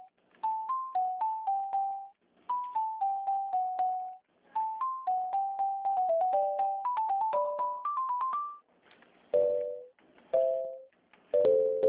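An electronic ringing melody plays on the line during an outgoing phone call. Short beeping notes come in repeated phrases separated by brief gaps, and a few lower chime-like notes close it.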